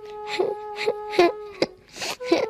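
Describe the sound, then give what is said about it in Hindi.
A boy cries on a school bench, letting out a series of halting, breathy sobs in short bursts with brief gasps between them. “वो bench पर चढ़कर रोने लगा।”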